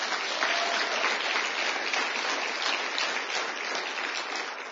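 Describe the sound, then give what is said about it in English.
Sustained applause from an audience after worship at an evening church meeting: a dense, steady clatter of many hands lasting nearly five seconds and easing slightly at the very end. “Let's give the Lord a big hand, please.”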